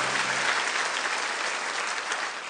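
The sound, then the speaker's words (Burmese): A church audience claps during a Sunday sermon, a dense, steady patter of many hands at an even level throughout. “လက်ခုပ်တီးလက်ထိုးကြည့်မြတ်တော်ဘုရားကိုဂုဏ်ပြုကြရအောင်”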